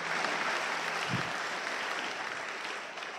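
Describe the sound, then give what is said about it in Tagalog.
Faint, steady applause from a church audience, a continuous patter of many hands that lasts about three seconds and tapers slightly at the end. “Palakpakan natin ang Diyos.”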